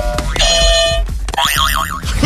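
Toy quiz game buzzers are pressed, sounding loud electronic tones: first a steady bright buzz, then after a short break a warbling, siren-like tone that wobbles up and down.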